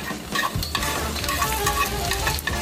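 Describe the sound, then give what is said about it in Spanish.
Onion, garlic, chiles and tomatoes frying in hot oil make a loud, steady crackling sizzle, with the scrape of stirring through the pan and no voices. “Caliente el aceite y sofríe la cebolla, los ajos, los chiles y los jitomates.”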